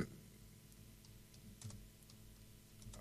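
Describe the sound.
Faint typing on a computer keyboard, a few sparse, soft keystrokes over a quiet background.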